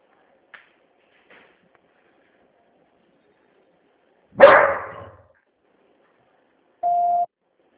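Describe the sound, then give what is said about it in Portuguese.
A single steady mid-pitched electronic beep as a phone call drops, sounding alone after near silence broken by a few faint clicks and a short noisy burst. “Ah, a ligação caiu.”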